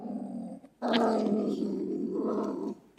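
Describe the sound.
A beech marten's call: a loud, rough, growling cry held for about two seconds, after a quieter sound at the start.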